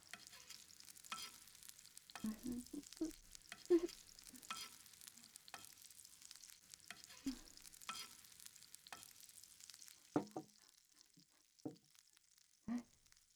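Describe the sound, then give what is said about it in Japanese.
Stir-fried vegetables are scraped and shifted from a pan onto a plate, with faint sizzling beneath a scattering of soft clanks and scrapes from the utensil. “よし、まずは野菜炒めをお皿に移して、”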